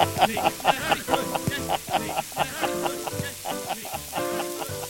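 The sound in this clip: Frymaster jingle sting for a fry-up, a rhythmic musical phrase with a vocal melody over a crackling frying sizzle, its beats pulsing steadily throughout.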